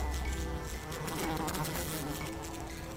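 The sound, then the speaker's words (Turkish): Many flies buzz around a room during a birthday gathering, making a continuous droning hum with a thin high whine running through it. The buzzing stays moderately loud throughout, with no voices. “Etrafta birçok sinek uçuşuyormuş.”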